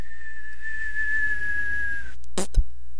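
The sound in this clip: A person with braces tries to whistle, producing a thin, steady high tone for about two seconds that dips slightly at its end, followed by a couple of short breathy puffs.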